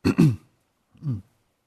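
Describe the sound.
A speaker clears his throat during a morning instruction talk: a rough double rasp, a pause, then one softer, shorter clearing, with silence around them.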